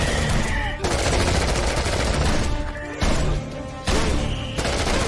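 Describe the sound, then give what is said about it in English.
Heavy automatic gunfire as two people, dug in, open fire on a swarm of raptors, loud continuous bursts broken by a few brief pauses. “After digging in, Jenny and Sky open fire on a swarm of raptors.”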